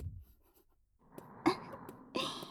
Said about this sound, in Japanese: そうそう、ちゃんと読めるように書くのよ。見た人が一発でわかるようにね。